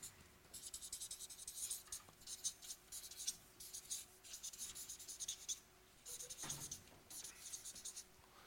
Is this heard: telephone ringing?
no